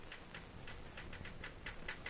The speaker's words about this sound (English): It's late in the afternoon, and Marie is at her work, at her typewriter, taking dictation from Feodor, the office manager.